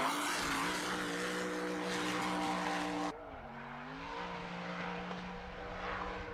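A 1,400-horsepower car, not built as a drift car, drifts with a loud, steady engine drone rich in harmonic tones. Its pitch wavers midway as the sound abruptly turns duller and quieter, then it carries on.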